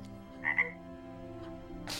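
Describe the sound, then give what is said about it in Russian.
A toad croaking: two quick, soft, throaty croaks in close succession over a steady low background hum. “На доспех вылезает жаба в короне.”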